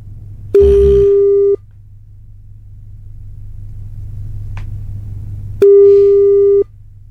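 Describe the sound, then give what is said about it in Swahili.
A telephone ringing tone as a call goes out: two long, steady, mid-pitched tones about a second each, separated by a pause, over a continuous low rumble. “Simu yake ndio inaitana. Tusikie anaitwa nani.”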